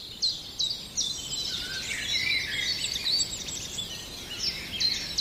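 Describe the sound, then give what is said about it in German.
A common chiffchaff sings its repetitive song, a steady series of high, clear chirping notes, fairly faint over a quiet background hiss. “Jetzt müsste der Zilpzalp schön zu hören sein.”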